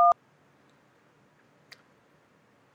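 A single short keypad tone from a phone, pressed to accept an incoming call, sounds briefly at the start. A faint click follows later, with quiet background hiss otherwise.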